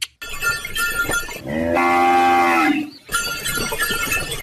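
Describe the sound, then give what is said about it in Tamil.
A single long, loud moo from cattle pulling a bullock cart loaded with black gram, held at a steady low pitch for about a second between other harmonic sounds. “மாட்டு வண்டியில் வர்றது நம்ம கருத்தமுத்து தான்.”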